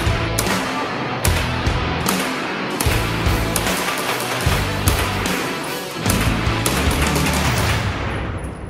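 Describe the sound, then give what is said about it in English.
Rapid gunfire from a Brügger & Thomet SPC pistol-caliber carbine on a shooting range in Massachusetts: many sharp shots in fast, closely packed strings, loud and continuous with brief gaps between bursts. “Brueger and Thormit is a gun that I've been wanting to see in carbine length. They brought a lot of pistols in early on, and now they're starting to come in carbine length, so we can sell them here in Mass. So we're gonna take this out on the range and shoot it and see how it goes.”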